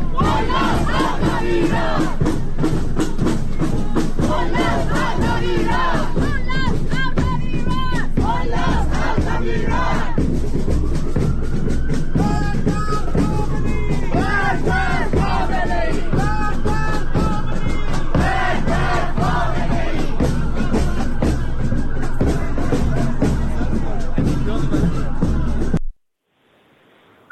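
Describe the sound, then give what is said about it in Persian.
A protest crowd chants at a demonstration in London. Many voices shout slogans in a loud, rhythmic chorus that runs nearly the whole time, then cuts off abruptly just before the end. “من یک صدایی هم از تظاهرات ضبط کردم، شاید اگر قابل پخش هست الان و آماده است اون رو هم بشنویم که در حال هوای ماجرا قرار بگیریم.”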